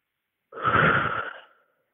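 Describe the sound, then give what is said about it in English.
A single deep breath, airy and fairly loud, swelling quickly and tapering off over about a second, heard alone against silence. “Can you take a deep breath for me and sort of describe what that feels like now that the air is clear?”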